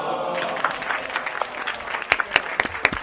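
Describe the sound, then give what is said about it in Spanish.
A recorded crowd cheers and applauds in the background during a gaming awards announcement, with a steady wash of clapping, scattered sharp claps and excited shouts of wow. “¿Se escucha un ¡wow! de fondo? que grabaron de fondo.”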